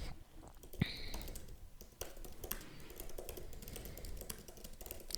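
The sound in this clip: Typing a short reply to a message on a computer keyboard: many quick, light key clicks in an uneven rhythm, fairly quiet, with no voices.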